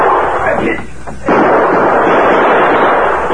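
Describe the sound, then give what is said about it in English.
Pistol gunfire rings out in a shootout at a barn, a loud, dense roar of shots. It drops back briefly, then surges again with a sharp onset and holds at full force. “the bullets from Sleepy and Max's guns whined toward them. The two crooks ran toward the open barn door as they fired.”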